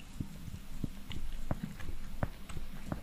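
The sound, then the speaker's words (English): Gum being chewed with a popping jaw: a series of sharp, wet clicks and pops at an irregular chewing rhythm, sounding alone without talk. “I wonder if they can hear my jaw popping on the mic.”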